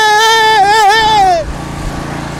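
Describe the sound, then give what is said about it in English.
A lawn mower engine revs hard with its blade off and a nitrous oxide boost: a loud buzzing tone with a wavering pitch that drops sharply at the end, then gives way to a lower, rough rumble. “Turn off the mower blade. Hit the nitrous oxide. And go!”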